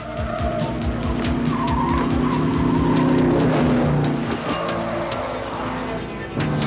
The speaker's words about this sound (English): The car goes very close behind the kids, and they turn off the road to drop down some stone steps onto another road.